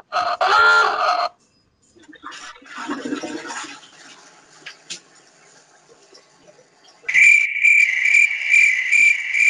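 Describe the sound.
Cricket chirping played from a soundboard as a joke sound effect: a steady, high, pulsing trill fills the last few seconds, after a few brief, unrelated noises.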